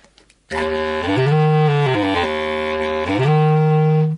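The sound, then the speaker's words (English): A wooden single-reed bass clarinet, about two metres long and coiled, plays a loud, dark phrase of sustained low notes. The line moves up, dips, then settles low and climbs again, with a rich buzzy timbre throughout. “This is a bass clarinet. It's about the size of, bigger than a tenor saxophone. It's also based exactly on the clarinet. It's made of wood. It's a single reed instrument, but it's probably around 2 metres long, coiled up, and it sounds like this.”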